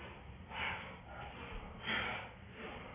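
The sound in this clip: Forceful nasal breaths of a Vajrika breath in a yoga breathing exercise: a few breathy rushes, two of them noticeably stronger and harsher than the softer ones between.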